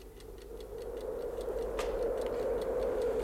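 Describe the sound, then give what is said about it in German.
An alarm clock set on a cable reel ticks in a steady, rapid rhythm, faint under a constant low hum. “Ich stellte den Wecker auf eine Kabelrolle.”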